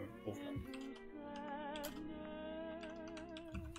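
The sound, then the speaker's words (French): Computer keyboard typing while notes are written during a tabletop role-playing game session: quick, irregular clicks over a sustained tonal background. “Désolé, hein, j'écris en même temps.”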